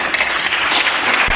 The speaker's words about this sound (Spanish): Que no, que había dicho que no le aplaudieran.